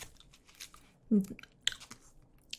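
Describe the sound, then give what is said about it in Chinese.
Faint chewing and biting of homemade food: a few soft crunchy bites and moist mouth sounds, with one fuller bite standing out among quieter clicks. “吃啊，比外面买来的还好吃。”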